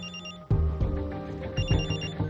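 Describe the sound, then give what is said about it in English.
A telephone rings with an electronic ringtone: bright repeating trilling tones, quieter at first, then louder and busier after a sudden jump, pulsing in a regular pattern with no voices. “He answers his phone.”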